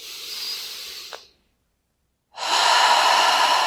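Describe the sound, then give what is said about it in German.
Deep breath drawn in during a guided relaxation exercise: a fainter airy breath fades out, a second of silence follows, then a loud, steady rush of air continues to the end. “Und gleich noch einmal, atme noch einmal ein, ganz tief.”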